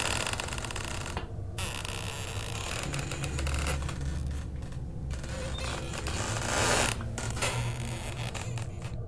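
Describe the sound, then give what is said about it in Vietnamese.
A coffin lid creaks and bursts open with dense, rasping, grinding creaks that run continuously for several seconds over a low, steady drone, broken by a few short gaps. “Nắp quan tài bỗng nhiên rung lên những cái tiếng dữ tợn. Rồi sau đó, nắp quan tài vặn vẹo, mở tung ra.”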